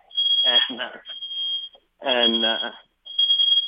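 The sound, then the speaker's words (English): A smoke detector alarm sounds in high, steady piercing tones, repeating in long bursts separated by short gaps, while a person talks over it. “I'll give you a second there to get your smoke detector working there.”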